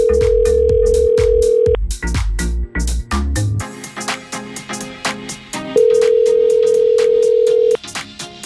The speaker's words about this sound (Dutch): laten we die eens even gaan bellen